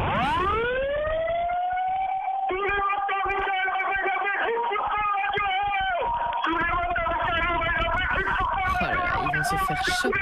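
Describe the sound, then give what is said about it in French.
A siren winds up from a low pitch to a loud, steady wail rich in overtones. It keeps sounding for the whole stretch, wavering slightly as it goes. “Allez, 3, 2, 1, un petit coup de sirène quand même.”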